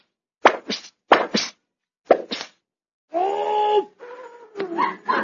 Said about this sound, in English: Here, Pip, give me that thing. I'm going to shoot the rest of these BBs right out the window.